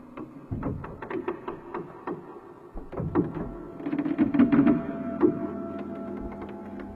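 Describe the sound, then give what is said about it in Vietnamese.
A wooden handloom creaks and knocks while weaving cloth at night, with many soft, irregular clacks and creaks, a brief lull in the middle, then a denser run of knocks before it fades. “Bên tai nghe tiếng khung cửi ở ngoài kia, tựa như là người ta đang dệt vải. Tiếng khung cửi trong đêm nó cứ kẽo cả kẽo kẹt,”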